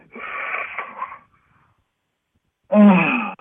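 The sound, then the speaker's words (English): A person exhales deeply during a guided breathing exercise: a breathy, rushing exhalation lasting about a second, then a pause of silence and a short, louder voiced sigh with a moaning tone. “That was me exhaling.”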